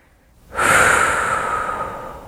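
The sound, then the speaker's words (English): A big deep breath taken during a wrist-tapping relaxation exercise: one loud, airy inhalation that starts abruptly after a short quiet moment and holds steady before easing off slightly. “Tap the inside of the wrist. Big deep breath, big sigh.”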